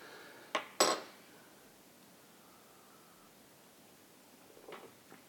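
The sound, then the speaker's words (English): A spoon stirring espresso in a cup gives two sharp, brief clinks against the cup near the start. A quiet hiss follows, then a faint, soft clatter near the end. “I'm going to stir my espresso because stirring espresso is good.”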